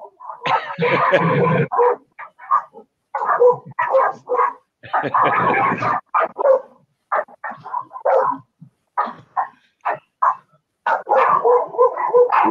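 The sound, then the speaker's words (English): Dogs barking in many short, loud barks and yips, coming in irregular bursts with brief pauses between them. “And I'll pass it back to you while the dogs bark here for a second.”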